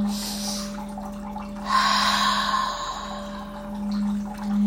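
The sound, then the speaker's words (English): During a guided relaxation, a slow, deep breath is drawn in as a long, airy rush of air, followed later by a softer swell of breath, all over a steady low electrical hum. “So you can close your eyes and take a deep breath.”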